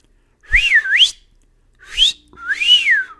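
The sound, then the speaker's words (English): A person whistles a catcall at a catbird: a few clear, high, sliding whistled phrases, the first with two swooping notes and the last a long rising-then-falling arc, separated by short pauses. “I noticed this catbird that kept coming around, and I wondered if I could teach it to whistle something. So I tried whistling this”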